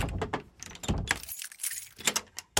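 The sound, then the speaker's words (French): A wardrobe door is pushed shut amid a series of sharp knocks, rattles and jangling metal clatter, irregular bursts of hard impacts with short pauses between them. “Voilà, je peux refermer l'armoire.”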